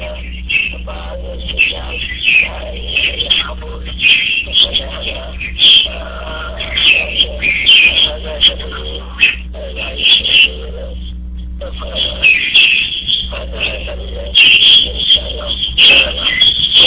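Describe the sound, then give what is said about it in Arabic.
Loud sparrows chirping nonstop, a dense, high-pitched chatter of many overlapping calls that fills the whole stretch with only a brief lull. “صوت العصافير شيخ، العصافير صوت مرتفع جدا.”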